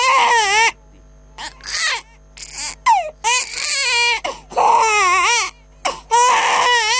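A hungry infant cries in loud, wailing bursts with a warbling, wavering pitch. Many sobbing cries are separated by short gasping pauses, with no other sound.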